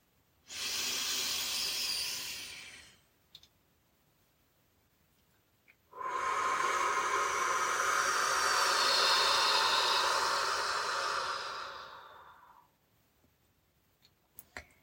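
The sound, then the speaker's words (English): Two long breaths during a walking meditation: a slow, airy inhale of a few seconds, a pause, then a longer, even exhale that fades out, all without talking. “Inhale and exhale one more time, drawing in each breath even slower than the last.”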